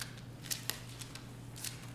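Pages of a Bible being turned to the book of Zechariah, heard as faint papery rustles with several brief, crisp crackles scattered across a quiet background.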